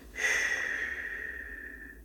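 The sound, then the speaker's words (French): A slow exhale through the mouth after a held breath, during a confidence-building breathing exercise. It is a steady airy hiss with a faint whistling tone that starts suddenly and trails off gently over about two seconds, with no talk. “tu bloques la respiration, tu laisses euh, un petit moment jusqu'à ce que tu puisses plus, d'accord Et après, tu commences à expirer tout doucement par la bouche.”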